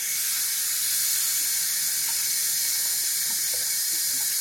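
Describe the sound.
Running tap water pours into a kitchen sink as spinach is washed, a steady, even hiss and rush that continues unchanged throughout, with no talking.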